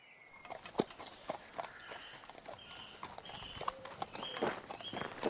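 A horse's hooves clip-clop as it carries its rider along a road. Many light, knocking hoof strikes fall in a steady walking rhythm, with faint tonal sounds in the background.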